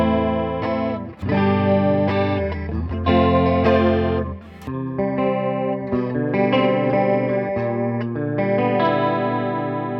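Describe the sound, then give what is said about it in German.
Chords played through an effects unit with its sweetness control engaged. Several rich, distorted chords with a chorus-like shimmer are struck one after another, each sustained before the next. “Das war ein schöner Akkord.”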